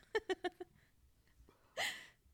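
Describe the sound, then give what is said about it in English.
A person burps once, a short throaty voiced belch heard after a quick run of four soft, clipped vocal pulses. The whole clip is faint. “Sorry, I've got the burps.”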